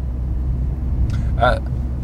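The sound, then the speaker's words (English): A car driving off-road across a bumpy field gives a low, continuous rumble that stays steady throughout, with a brief voice near the end. “Well, he's pretty much driving in a field right now. What? Because they're walking. I'm hoping they're getting the vibrations on the tape here.”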